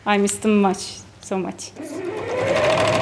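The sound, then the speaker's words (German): A sewing machine runs in a sewing room converted to production work, a steady motorised whirr that climbs slightly in pitch and holds. A voice speaks briefly before it starts. “In einem Zimmer wird allerdings gearbeitet, im Nähzimmer. Eigentlich sollten hier Schneiderkurse stattfinden, aber das Zentrum hat auf Produktion umgestellt. Batu sitzt im weißen Schutzmantel mit Maske und Plastikhandschuhen an der Nähmaschine.”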